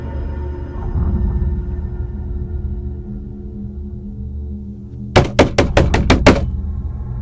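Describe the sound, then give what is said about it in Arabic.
A tomb door is shut and locked from outside, heard as a rapid series of sharp, hard knocks and clacks. They come in a tight cluster over a low, droning rumble that fills the rest. “فرحت وتحركت ناحية باب القبر، سمعته بيتقفل عليا من بره.”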